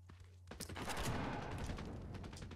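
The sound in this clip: Gunfire from a gun in the Fortnite video game: a few sharp shots after a brief lull, then dense rapid firing that continues to the end, fairly faint overall.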